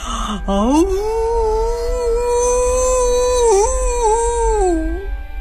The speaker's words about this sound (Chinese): 大狼对着月亮开始嚎叫。